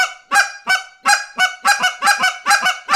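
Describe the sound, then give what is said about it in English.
A hand-held goose call blown in quick, repeated honking clucks, switching between low and high as the hand around it opens and closes. The notes are loud, sharp and fairly evenly paced, with no talk over them. “So you can get sounds by opening and closing your hands that go low cluck, high cluck, sounds like”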